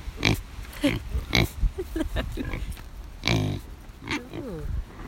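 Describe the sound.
Pigs grunting on a farm, a series of low, rough grunts and snorts in irregular bursts, some loud and close, with short pauses between them.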